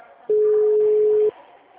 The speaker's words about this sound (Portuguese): Tá, eu vou ligar para ela de novo para falar sobre isso.